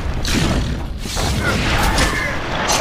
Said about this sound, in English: Oh my gosh, this mage keeps shooting at me.